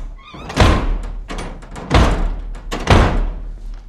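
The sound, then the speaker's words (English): A door slams shut three times, each a heavy, loud thud with a sharp impact, separated by short gaps with no talk. “Slam the door.”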